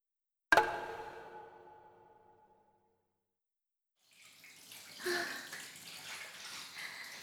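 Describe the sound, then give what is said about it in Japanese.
Water splashing and running quietly while the body is washed in a bath, starting after a short resonant knock that rings away into silence, then continuing as soft, uneven swishes. “それじゃあ、私先に体洗うから、お風呂入って待ってて。”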